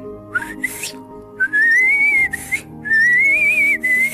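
High, wavering whistles said to come from a whistling fish, heard alone at night. A short rising whistle is followed by a few longer, drawn-out whistled phrases that waver gently in pitch.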